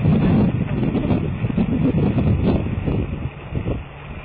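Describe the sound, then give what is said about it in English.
Wind buffets a microphone outdoors at night during a ghost-hunting session. It makes a muffled, rough rumble that surges and eases unevenly throughout, with no clear voices. “That's some really bad wind, man. Yeah, it's windy out it's there. It's windy out windy.”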